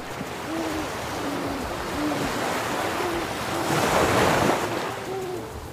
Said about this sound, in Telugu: దూరంగా సముద్రం మించి వస్తున్న గాలి విచిత్ర ధ్వనులను చేస్తోంది రాత్రి సభకి నేపథ్య సంగీతంలా